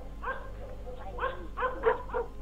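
Dogs bark in the distance at night. A few short, faint barks and yelps come in separate bursts over a low, steady hum.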